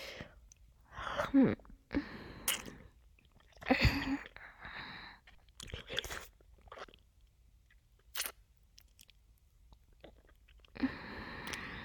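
Biting and chewing food, with crunchy bites and moist mastication repeating irregularly in many soft bursts, fairly faint throughout with brief pauses between mouthfuls.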